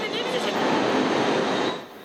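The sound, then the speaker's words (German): A German Deutsche Bahn train rolls along the tracks in a loud, steady rumbling roar that eases slightly toward the end. “Nach rund 2 Stunden ist die Störung behoben. Seitdem rollt der Zugverkehr wieder an.”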